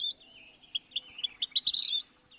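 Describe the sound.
A vermilion flycatcher gives a rapid series of sharp, high chirps and twitters. The notes come faster and louder toward the end, with no other sounds around them.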